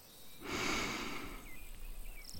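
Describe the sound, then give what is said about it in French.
A slow, soft breath drawn in through the nose during a guided relaxation exercise: a single airy inhale that swells and fades over about a second, followed by quiet. “Respirons ensemble quelques instants. Inspirez par le nez”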